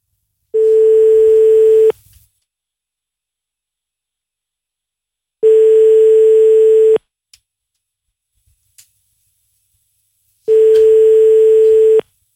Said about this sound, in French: D'ici là, on compose le numéro de téléphone